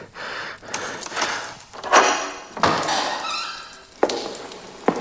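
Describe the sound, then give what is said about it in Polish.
A heavy metal door in an abandoned bunker with brick walls gives several dull thuds and knocks, spaced unevenly over a few seconds, with rattling scrapes between them. “Metalowe drzwi.”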